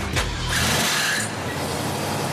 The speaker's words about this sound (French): Donc allez, vas-y, démarre. On va regarder le moteur en route.